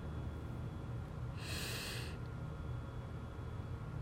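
A single deep breath during a guided meditation, a short airy rush of air about half a second long, faint and alone against a quiet background.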